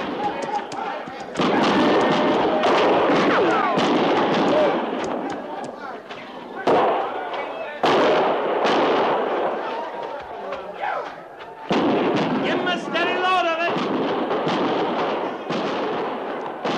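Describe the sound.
Gunfire from soldiers ordered to dig in and fire during a fight at a camp: many sharp bangs and thuds in dense, overlapping volleys, with shouting voices throughout.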